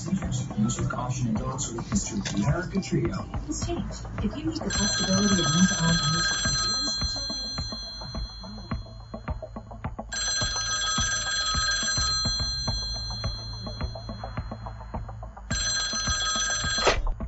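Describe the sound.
A telephone rings in three separate bursts of bright, trilling bell tones with pauses between them. Voices and a busy background of other sounds come first and carry on underneath the rings.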